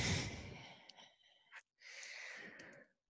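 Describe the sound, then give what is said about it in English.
Person breathing during a yoga flow: a long, soft, airy exhale, a brief pause, then a second steady breath, both faint and breathy with no talk. “Low push up, breathe out. Breathe in. Breathe out.”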